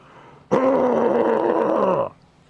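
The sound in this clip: A human voice imitates a Bigfoot's grunt and growl in one sustained, rough, low growl that lasts about a second and a half. It starts abruptly and cuts off sharply.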